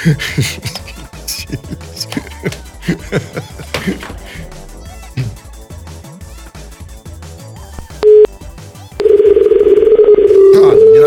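A telephone call rings through on an outgoing line. Choppy rhythmic beats come first, then a short tone, and then a loud, steady buzzing ring tone continues to the end.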